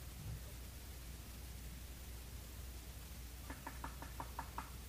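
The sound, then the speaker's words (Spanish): Knocking on a door: a quick run of about six sharp raps near the end, faint beneath a steady hiss. “aquella mujer chiquita escuchó un toque a la puerta.”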